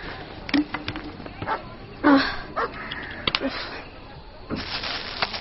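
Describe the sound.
A dog barking: several sharp barks and higher yips break out in short irregular bursts, with quieter whimpering between them.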